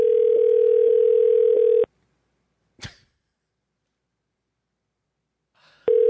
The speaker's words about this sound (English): Hang on, let me call back and tell her I got the wrong store.